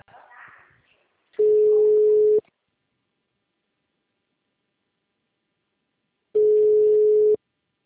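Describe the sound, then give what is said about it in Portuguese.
Phone line tone after a dropped call: two loud, steady, low-pitched tones, each about a second long, separated by roughly four seconds of silence, with a brief faint noise before the first. “Alô? Alô? Oi, a ligação caiu.”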